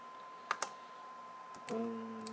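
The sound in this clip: Digits are typed on a computer keyboard as a few faint key clicks, spaced irregularly across a couple of seconds with no voices.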